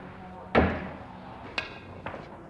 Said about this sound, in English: I'll try to cut the ball in that pocket one-handed, jacked up.